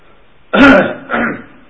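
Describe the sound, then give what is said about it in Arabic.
A sheikh coughs in two harsh, loud bursts, the first stronger and the second shorter and lower, with quiet before and after. “كحة الشيخ هذه زينة”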